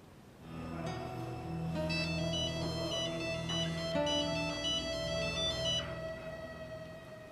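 A telephone ringtone sounds as a call is placed, a melodic electronic ring with shifting tones that repeats steadily for several seconds, fairly faint and alone.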